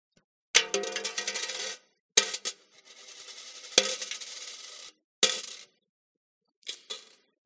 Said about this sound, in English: You would hear the sound of the coffer, and the sound of the coffer would sound something like this.